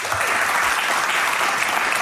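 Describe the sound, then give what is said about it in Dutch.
Warm audience applause, dense continuous clapping that stays loud and even throughout without any clear voices. “Een warm en parmantig applaus voor niemand minder dan Karin Bloemen.”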